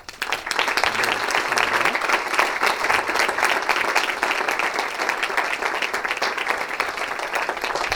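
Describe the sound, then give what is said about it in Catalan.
Applause from an audience at a public event held by a local political list: thick, continuous clapping that starts almost at once and keeps an even, busy texture for about eight seconds. “També m'agradaria un fort aplaudiment per ells.”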